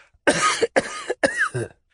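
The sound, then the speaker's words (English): An old man coughs in a rapid series of three harsh, rasping bursts with brief gaps between them. The last burst trails off into a rougher tail. “And it seemed as though the cough that followed was destined to last longer than the old gentleman in possession of it.”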